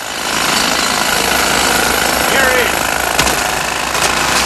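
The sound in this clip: Jackhammer drilling into stony ground at a construction site, a loud, continuous rattling roar that holds steady for several seconds with a few sharper knocks near the end.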